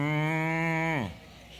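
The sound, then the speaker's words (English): A toy farm sound player plays a cow moo: a single steady, buzzy, low lowing tone that drops in pitch and fades as it ends, with no talking. “You put it on the cow and pull the string, and you're,”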